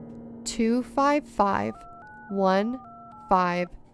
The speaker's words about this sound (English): Then dial the number